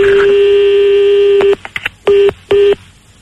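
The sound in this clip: A telephone number being redialed with DTMF tones: a loud, steady tone runs first, then stops, followed by a few short, crisp keypad beeps separated by brief gaps.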